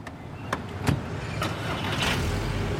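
A camper van used as a mobile bar drives slowly away from an entrance. Its engine gives a faint, low, steady rumble, with a few short knocks early on.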